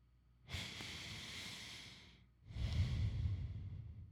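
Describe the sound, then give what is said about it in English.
A deep breath is drawn, heard as two long airy breaths in close succession, the second fuller, louder and lower than the first. “Deep breath. That's yin yang.”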